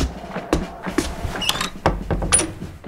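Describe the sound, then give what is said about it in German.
A door shut in an army officer's quarters in Kandahar: a few sharp wooden thuds and clicks, with some softer shuffling in between. “Schließen Sie die Tür und stehen Sie bequem.”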